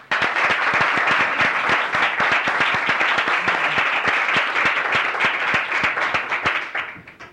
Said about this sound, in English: And please help me welcome the students that's going to compete tomorrow.